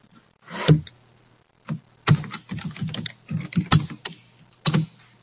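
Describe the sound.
Keystrokes on a computer keyboard as a name is typed, quiet clicks arriving in short uneven bursts separated by brief pauses, with no talking.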